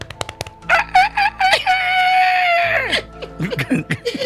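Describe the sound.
A rooster crows loudly. A few short choppy calls lead into one long drawn-out crow whose pitch drops at the end, followed by more short, broken calls.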